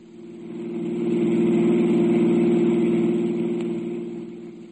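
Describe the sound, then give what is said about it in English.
A car engine drones steadily as the car is driven, a low, even hum that swells in the middle and eases off toward the end, with no voices. “I drove back to the Horner apartment”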